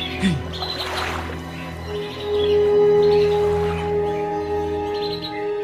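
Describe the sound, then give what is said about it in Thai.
Birds chirping by a pond give a few brief, high chirps that rise over a steady, humming tonal background. “เราต้องให้นกพวกเนี้ยมันบินหนีออกไปอยู่ที่อื่นให้ได้”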